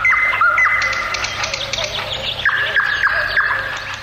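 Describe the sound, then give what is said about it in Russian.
Birdsong said to come from a nightingale at the edge of a ravine after dark: pure, clear whistled notes held steady, broken by quick chirps and trills. The song runs continuously and sounds loud and bright throughout. “хозяин леса дед Аук услышал на краю оврага незнакомый ему птичий голос. Чистый, прозрачный, как роса.”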